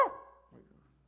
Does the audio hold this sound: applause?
no